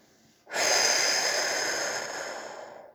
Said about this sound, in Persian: و با بازدم تمام ناراحتی‌های خودت رو، نگرانی‌هات رو از بدنت بیرون بریز.